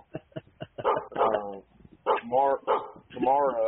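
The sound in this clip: Dog barks remixed into a rhythmic track: a run of short, sharp yips, then longer pitched, whining bark sounds in repeating bursts.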